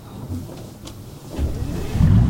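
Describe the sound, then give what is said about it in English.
A yacht turning around and motoring away from a port, heard as a low engine rumble that builds and grows louder toward the end. “The yacht starts to turn around and motors away from the port.”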